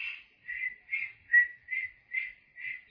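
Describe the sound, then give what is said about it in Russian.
A light, whistle-like tone made with the voice as a head-voice singing exercise: seven short, soft, high pulses at an even rhythm, faint and alone. “Нужно вначале вот между бровей просто вот звуком посвистеть, свисточком.”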